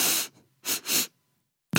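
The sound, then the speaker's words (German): Sharp inhalations through the nose, three of them: a longer first sniff, then two short, sharp ones in quick succession, followed after a pause by another loud breathy burst. “du musst dreimal scharf durch die Nase einatmen. Und das erste Mal davon tief einatmen und die anderen zwei nur kurz, aber sehr scharf.”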